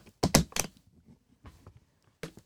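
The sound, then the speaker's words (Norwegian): A suitcase filled with copies is opened, with a few sharp latch-like clicks close together, then soft rustling and one final click. “Jeg har en koffert som ligner litt, som jeg har fylt opp med kopier da, for jeg har ikke den ekte kofferten. Men hør her, nå skal jeg åpne den.”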